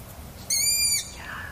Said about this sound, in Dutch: Een ransuil op een kale tak. Een wonderlijke ervaring, zo in de stilte van de naderende nacht. Hoort u maar.